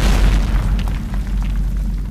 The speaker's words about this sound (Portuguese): Eles começam a correr na direção de vocês e começam a explodir. São danos violentos.